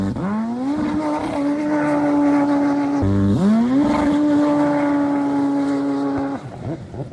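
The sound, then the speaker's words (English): Jet skis roar on an estuary with a loud, steady, droning engine whine. It dips briefly around the midpoint, then surges back and holds before easing off. “the trail bikes of the sea, the rare and endangered jet skiissimus idioticus, out they come to join the wildlife”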